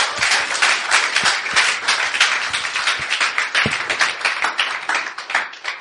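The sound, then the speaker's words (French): Congregation applauding at a French-language church service, a dense, steady wash of many hands clapping at an even loudness throughout. “Est-ce que tu veux acclamer? Acclame pour Dieu.”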